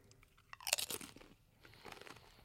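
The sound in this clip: A crunchy bite into a Pineapple Reaper chili pepper held close to the mic: one loud, crisp crunch, then a few softer chewing crunches, with no talk.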